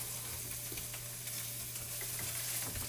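Diced and sliced Spam frying in a pan as it is stirred: a steady, hissing sizzle with scattered small crackles and pops throughout.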